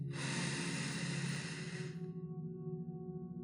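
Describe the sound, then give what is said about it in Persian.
A deep inhale during a guided relaxation meditation: a loud, breathy rush of air lasting about two seconds, followed by soft sustained tones. “یه نفس عمیق دیگه دم”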